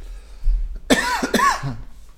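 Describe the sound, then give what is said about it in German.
A coughing fit: a few harsh, fairly loud coughs in quick succession, heard on their own without talk. “Ja, war Zeit der Hustenanfälle im Podcast. War richtig schlimm.”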